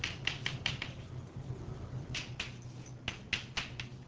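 Writing on a board during a physics lecture produces many quick, sharp tapping strokes in short bursts over a low steady hum, with no speech.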